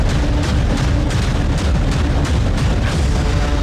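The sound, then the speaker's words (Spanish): Stun grenades detonating during an early-morning police raid on a city neighborhood, a loud, dense, unbroken roar of booms and bursts with repeated sharper blasts throughout. “El sonido seco de las granadas aturdidoras rompió el silencio de la madrugada.”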